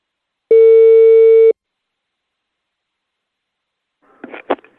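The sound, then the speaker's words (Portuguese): A telephone call tone on an outgoing call: one steady, even electronic beep about a second long, then quiet and a brief soft rustle. “Eu vou ligar agora pra Dona Prudência.”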